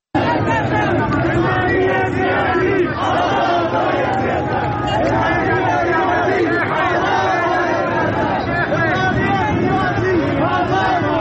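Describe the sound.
A large crowd of protesters chanting slogans in the streets of Zahedan, a dense, continuous roar of many voices shouting together, loud and steady throughout.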